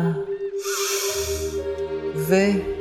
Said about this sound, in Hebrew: קחו נשימה עמוקה